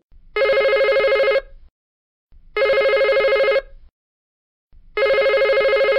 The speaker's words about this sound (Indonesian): sekarang jika kalian mendengar dering telepon tiga